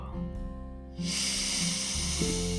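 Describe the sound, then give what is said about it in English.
A slow breath in through the nose, then a long, breathy rush of air out through the mouth, heard over low sustained tones. “Take a moment to connect to your breath, breathing in through the nose, pausing for just a moment, and then exhaling through the mouth, like so.”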